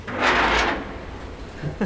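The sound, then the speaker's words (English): A heavy steel entrance door, built like a submarine hatch, being pulled open: a loud grinding scrape swells and fades over most of a second, followed by quieter rattles and a short knock at the end. “Visitors today can freely enter and leave via its 2 steel doors. So I think this first door I can handle. I'm not sure about the second one. If you've ever seen a submarine door, it looks a little bit like that.”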